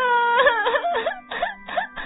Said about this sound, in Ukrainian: Стоп! Будь ласка, не починай знову плакати